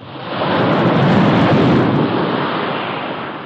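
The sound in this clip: Ocean waves as a sound effect: a continuous roaring wash of surf that swells over the first half second, holds loud and dense, then eases slightly toward the end, with no voices.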